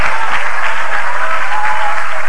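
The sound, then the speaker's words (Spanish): An audience applauds during a Spanish-language evangelical worship service: loud, dense, continuous clapping that stays at a steady level throughout. “¿Cuántos le dan un aplauso al Cristo de la gloria?”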